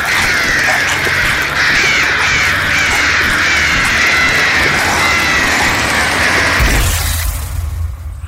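Harsh, crow-like cawing from a calling bird, loud and sustained over a dense noisy background, cutting off abruptly near the end.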